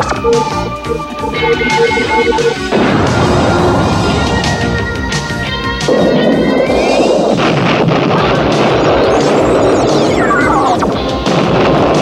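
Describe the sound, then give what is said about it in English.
Explosions and crashes from a cartoon battle in which a torpedo is fired at a vehicle and a depth charge is dropped to intercept it, forming a loud, dense, continuous roar with whistling tones and a falling whistle near the end. “So Rack shoots off a torpedo at Gator, and Dusty tries to intercept it with a depth charge.”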